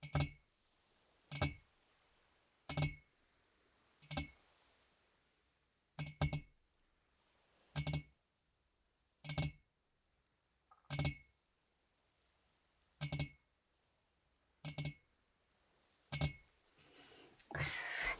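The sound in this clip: Sharp, bright clinking taps are struck on a desk leg, one at a time at a slow and fairly regular pace. Each tap rings briefly, and the whole series stays quiet.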